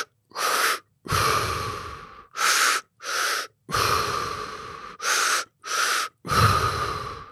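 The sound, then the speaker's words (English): Breath-work breathing, drawn in and let out through the mouth: eight loud, airy breaths separated by brief silences, mixing quick gasps with longer, rushing breaths in an uneven rhythm, with no talking. “the breath work technique is in through the mouth, into your stomach, a second breath into your chest, and then out through your mouth. So it's kind of looks like, or sounds like, if you're just listening.”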